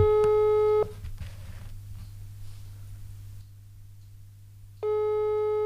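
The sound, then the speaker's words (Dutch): A telephone rings for an incoming call. A steady electronic tone sounds in two bursts, one at the start and one at the end, separated by a few seconds of low hum. No one speaks. “Maar ik ben benieuwd waarom hij me nog probeert te bellen.”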